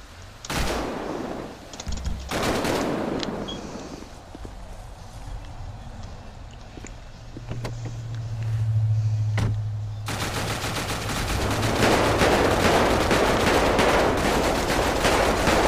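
Gunfire in the police video game FivePD: loud, rapid bursts of shots and harsh noisy crackle, thinning briefly in the middle before building into a dense, sustained stretch.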